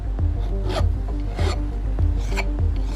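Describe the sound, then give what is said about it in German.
A goldsmith files a ring at her workbench with a hand file, giving dry metallic rasps. Repeated push strokes come in a steady rhythm, each one a short gritty scrape with a light knock at its start. “Goldschmiedin Caro, die Inhaberin von Goldzauber, sitzt an ihrer Werkbank und feilt an einem Ring.”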